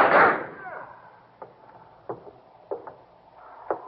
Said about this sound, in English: Look out, the guns. They are going. Quiet, fire.